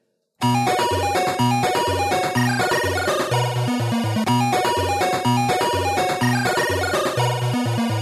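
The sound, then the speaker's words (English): Chiptune music from an 8-bit era video game: bright square-wave melody over a bouncing, repetitive bass line and blippy percussion, loud and steady throughout after a brief moment of silence at the start. “Some people, including myself, remember when video game music sounded like this.”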